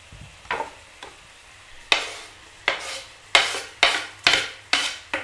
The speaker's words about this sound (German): Und wir geben dann mal die Zwiebeln und den Knoblauch schon mal dazu.